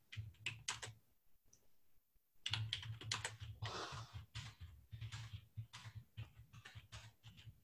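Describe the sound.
Fingers typing on a computer keyboard in quick, uneven bursts of light clicks, with a brief pause partway through before the tapping resumes at a steady pace.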